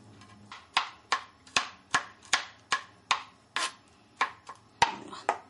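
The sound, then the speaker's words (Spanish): A knife finely chops garlic for a Mexican recipe, making many sharp, crisp knocks in an even rhythm of about two per second with nothing else heard. “El ajo también lo vamos a picar muy finito.”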